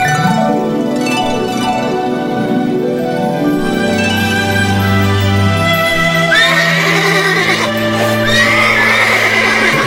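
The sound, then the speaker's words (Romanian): Horses neigh in a children's fairy tale, summoned for every girl and boy: several whinnies rise and fall over a steady, full background, growing brighter in the second half. “Îndată voi chema cai frumoși pentru fiecare fată și pentru fiecare băiat.”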